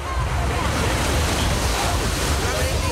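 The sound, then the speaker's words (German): Wind and waves wash over an outdoor lake bathing beach in Losheim, a steady, loud, unbroken rushing noise with no voices. “So klingt's heute im Strandbad in Losheim.”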